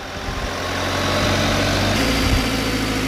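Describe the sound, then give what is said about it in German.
An aerial lift truck's engine runs with a steady, fairly loud low rumble while it raises a worker about 11 meters toward a stork nest. The drone stays constant throughout, with no voices. “Auf etwa 11 Meter fährt Georg Fiedler im Hubwagen zum Storchennest hinauf.”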